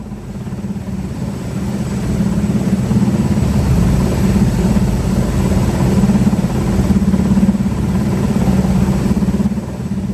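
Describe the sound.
Low, steady engine drone of a military helicopter starting operations ahead of a joint naval exercise, a continuous rumble that holds nearly constant loudness throughout with no voices.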